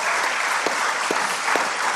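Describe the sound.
An audience in a Reformed church breaks into dense, continuous applause, many overlapping hand claps holding at an even, lively level throughout.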